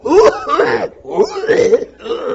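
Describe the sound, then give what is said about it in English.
A voice imitates a smoker's harsh, hacking cough in a few rough, throaty bursts, each strained and gravelly, loud and alone with no other sound. “So, the same way the guy would cough.”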